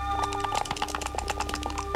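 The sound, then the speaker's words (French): Dice thrown during a game clatter in a quick run of many sharp little clicks and rattles, fairly loud and dense across the whole moment, with no talk over them. “Je lance les dés.”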